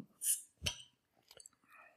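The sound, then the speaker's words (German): A beer bottle being opened: a short, high hiss and a sharp click, followed by a few faint clinks and soft rustles, all fairly quiet. “Ich mach mal ein Bier auf.”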